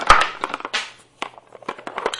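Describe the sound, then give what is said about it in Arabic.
A piece of a plastic toy falls, giving a sharp clatter followed by several lighter knocks and handling sounds, with a short quiet gap midway. “طاحت قطعة مش مشكلة، بعدين نجيبها.”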